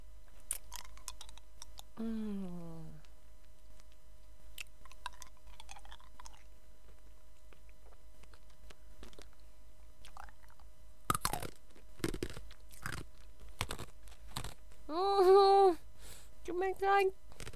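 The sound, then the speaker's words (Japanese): Crunching and chewing of ice, a run of sharp, crisp bites and grinding crunches with pauses between them, joined by a few short bits of speech and a hum. “かじれない。おいしい。久しぶりに氷食べた。”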